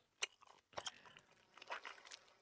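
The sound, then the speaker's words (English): Someone chewing with crunchy bites and crackly, moist mouth noises. A few separate bursts at low volume, with no talking. “It's the sound of someone chewing.”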